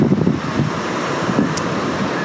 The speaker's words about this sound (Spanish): Y aunque escucháis estas olas donde estoy